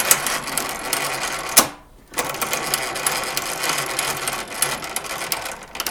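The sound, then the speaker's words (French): An American-made potato peeling machine runs, its knife circling a potato held on three prongs: a fast, dense mechanical clatter and whir that stops briefly, then starts again and keeps going. “Celui-ci, là, une machine à peler les pommes de terre. Oui, c'est très sympa comme outil parce que c'est une fabrication américaine et puis quand on entend le bruit, ça laisse rêver.”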